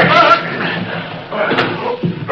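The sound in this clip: Scraping and knocking as two men shove a large wooden crate that once held a concert grand piano out of the way, with a few broad thumps over about two seconds.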